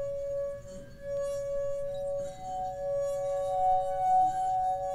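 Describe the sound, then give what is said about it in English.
A wet finger circling the rim of a wine glass draws out a singing resonance: a steady, sustained pure tone with faint overtones, pulsating gently in loudness and heard alone throughout. “you wet your finger and run it around the rim of the glass. At first, nothing happens. Then, when the vibrations caused by your finger hit just the right level, the glass begins to sing with this full pulsating note.”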